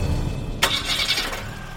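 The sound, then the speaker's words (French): A camper van engine starts with a sudden sharp burst as it catches, then eases into a steady low running hum. “démarra alors le moteur du combi.”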